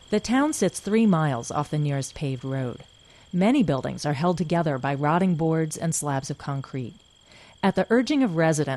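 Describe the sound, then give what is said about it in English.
Crickets chirping at high noon in a quiet, remote rural town: a steady high trill that runs beneath continuous spoken narration. “When you stand in the center of Leith, North Dakota at high noon, you don't hear cars or people. What you hear are crickets.”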